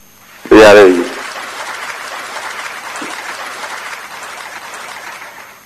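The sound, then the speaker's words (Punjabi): Studio applause for a correct quiz answer: a brief, loud burst at the start, then even, steady clapping that holds at a moderate level until the end. “ਤਾੜੀਆਂ ਵਜਾ ਦਈਏ ਫਿਰ।”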